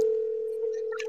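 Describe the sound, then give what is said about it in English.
A telephone line tone sounds as a call goes out to a landline, a single unbroken mid-pitched tone that holds steady throughout, with brief scattered noise near the end. “We're calling his dead dad right now. If he answers, I'm done.”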